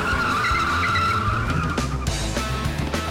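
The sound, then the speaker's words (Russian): Car tyres skid and screech during a car chase, a loud, sustained squeal with roaring engine noise that runs unbroken for about three seconds. “За героями погоня на машине.”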